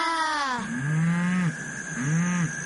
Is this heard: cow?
yes